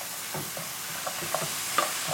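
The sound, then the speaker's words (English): Frozen shelled edamame is tossed into a sizzling pan and stirred, giving a faint, steady frying hiss broken by a few soft clicks and crackles, with no talking. “And now I'm gonna throw in, I have shelled edamame. Just, you know, I buy it in the freezer section of the supermarket. It's going right in there.”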